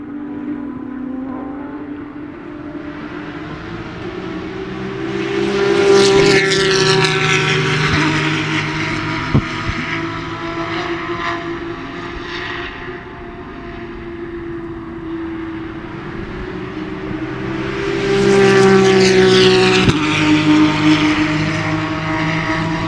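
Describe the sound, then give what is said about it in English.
Porsche race cars on the road circuit at Virginia International Raceway, with two loud swells of high-revving engine tone rising out of a steady engine drone. Each swell fades away afterwards. “We're going to crank it up here. We're going to listen to these Porsches”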